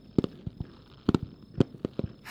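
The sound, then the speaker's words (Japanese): Fireworks burst during the finale of a fireworks display, a series of sharp booms and crackling pops in irregular clusters, moderately loud, with a brief rush of noise at the end. “あ、すごいすごい、やっぱ迫力のある花火はいいよね。”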